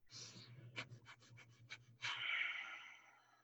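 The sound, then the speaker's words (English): Breath of fire, the rapid breathing of Kundalini yoga: one breath in, then a quick, even run of sharp, short puffs of breath, ending in a longer rush of air. The breathing is faint and alone. “the breath of fire. It, it is a Kundalini yoga technique, but basically um, it, it's a really good anxiety booster, and you just breathe in and then you kind of like hyperventilate out.”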